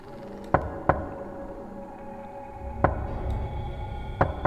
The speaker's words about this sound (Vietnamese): là tiếng gõ cửa. Tiếp theo đó là những âm thanh cót ca cót két vang lên.